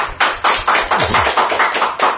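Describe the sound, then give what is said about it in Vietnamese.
A church audience claps in a steady, even rhythm: sharp, evenly spaced claps, roughly four per second, repeat at a moderate volume with little else heard between them. “Vâng, thưa anh chị em, cho một tràng pháo tay thật lớn.”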